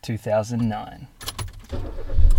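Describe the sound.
A car being started: people talk first, then a low engine rumble swells toward the end.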